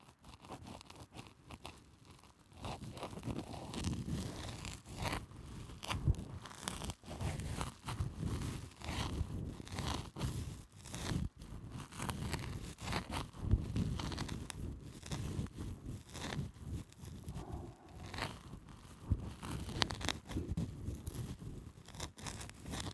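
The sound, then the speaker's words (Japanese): Scratchy crackling of an ear pick working against dry earwax inside an ear: continuous dense crunching, crinkling and rubbing over many seconds, fairly faint, with no talking. “俺の耳かきなんて気持ちよくはないんじゃないか。”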